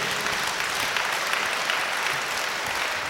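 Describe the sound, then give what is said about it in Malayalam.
Applause from an audience at a religious gathering: a dense, steady wash of many hands clapping, sustained and even from start to finish, with no voices standing out. “കൈയടിച്ചേ.”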